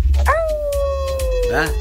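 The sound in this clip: A female puppy howls a long, thin note that slides slowly downward, with short rising yips near the start and again at the end, over a low rumbling background.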